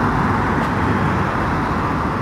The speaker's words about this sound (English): Very light on the motorways. It does look like a car.